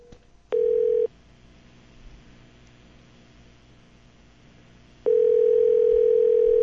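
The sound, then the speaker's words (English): A steady telephone line tone sounds briefly at the start of a call to a pizza restaurant. It cuts to faint hiss, then returns loud and holds unbroken to the end. “Little dialing music. All right, we are dialing.”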